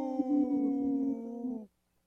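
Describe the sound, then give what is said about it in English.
Several people imitate a wolf howl together, their voices joining in one long, sustained note that dips slightly in pitch at the end before cutting off into silence. “Wow, that was a good howl. Kind of three-way harmony.”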